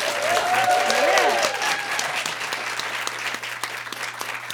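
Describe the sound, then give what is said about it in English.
Studio audience applause for a guest musician in Richmond, a steady, lively patter of many hands clapping that runs the full length and eases slightly toward the end. “Give him a hand.”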